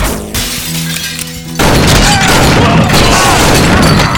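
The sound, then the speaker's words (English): Gunshots, shotguns among them, in a saloon shootout inside a low-ceilinged room. A quieter tonal passage gives way to a sudden, loud, dense barrage of booming blasts and crashes that carries on to the end. “Falcon and Stumpy threw themselves backward to the floor, greeners in their hands, just as Bonnie pulled iron and fired.”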